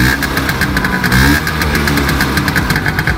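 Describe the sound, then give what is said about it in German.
An old Vespa scooter engine runs steadily, giving a loud, throbbing putter of rapid regular pulses with a slightly rough, knocking edge, continuous throughout. “das war natürlich eine Vespa, eine alte Vespa.”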